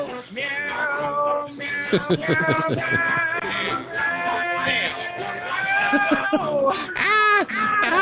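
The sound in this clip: A person imitates a cat meowing in a quick run of many drawn-out vocal meows with bending pitch, loud and alone.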